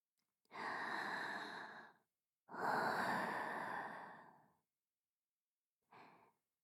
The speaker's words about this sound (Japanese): はい、こんな風に呼吸をしてくださいね。